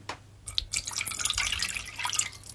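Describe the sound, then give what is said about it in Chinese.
Remaining liquid is poured all at once into a pot of melted sesame powder mixture, starting after a brief pause and continuing as a steady, bright splashing stream with dripping texture. “可能锅里的芝麻粉已经融化了，液体也变得比较均匀。这时候可以一口气把剩下的都倒进去。”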